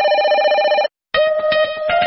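Electronic telephone ringing serves as the jingle of a radio call-in show: two bursts of bright, buzzy, warbling ringing with a short silence between them, the second burst carrying a steadier tone.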